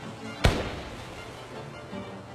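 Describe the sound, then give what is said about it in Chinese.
A gunshot sound effect in an audiobook, for a missed shot fired at a man: a single sharp, loud crack that stops abruptly, then only quiet background with no voices. “阿泰又朝大辉开了一枪，没有打中”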